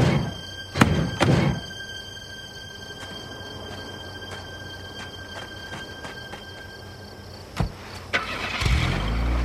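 A trash bag is heaved into a dumpster with a few dull thumps near the start. Quiet follows, then a few more thuds near the end and a low rumble at the close.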